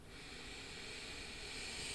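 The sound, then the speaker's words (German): A slow, deep breath taken in during a relaxation exercise, heard as a steady, airy hiss that holds at an even loudness for about two seconds without voices. “Atme mal ganz tief ein”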